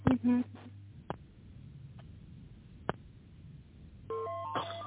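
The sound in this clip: Dialing tones on a phone line as a call is transferred: short bursts of electronic tones at the start and again near the end, with a few faint clicks over a low line hum between them.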